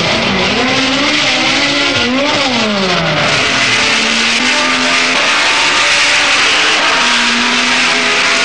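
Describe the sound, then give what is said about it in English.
Race cars roar off the start of a Grand Prix race at Brands Hatch circuit. Loud, overlapping engines rise and fall in pitch through gear changes over a constant wash of noise, with no talk. “And they're away. The race is over 80 laps on the 2.65-mile circuit. That's 212 miles. Two of them make an inauspicious start.”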